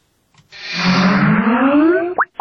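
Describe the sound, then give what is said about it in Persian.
Skype computer program startup sound: a loud, bubbly, warbling synthetic tone that glides steadily upward in pitch for over a second, then ends with a short bright blip and a click. “این صدای باز شدنی برنامه کمپیوتری اسکایپ است که به هر شخص امکان میدهد به پول با دیگران در تماسی تلفنی شود.”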